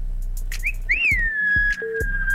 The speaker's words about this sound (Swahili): Hebu jipongeze kwanza na mluzi mzee.